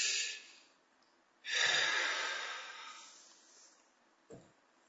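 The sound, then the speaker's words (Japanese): A deep breath is drawn in as a relaxation exercise. A long, airy rush of breath swells and slowly tapers off, and a short puff of air follows near the end. “はい、深呼吸。”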